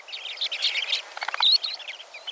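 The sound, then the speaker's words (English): A western sandpiper calls in a steady run of high, thin chirps and short piping notes, many in quick succession, with no pause. “And then, there's the female western sandpiper.”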